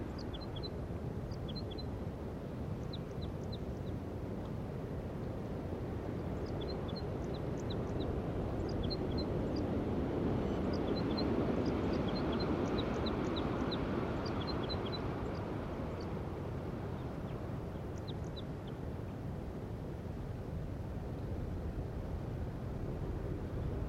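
Wild crossbill song, heard as faint, high, short chirping notes in scattered clusters over a steady, louder low rumble that runs throughout.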